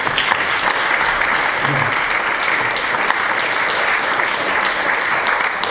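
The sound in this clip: An audience at the Cambridge Literary Festival applauds to welcome the evening's guests, a dense, steady wash of clapping that holds an even level throughout, with no talk over it.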